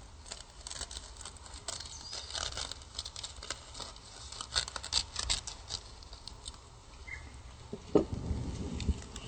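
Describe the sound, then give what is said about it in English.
Scissors cut something in half while vegan ham musubi is being made: a continuous papery rustle and snipping texture, with a sharper crunch near the end. “And you could use just a scissor to cut it in half.”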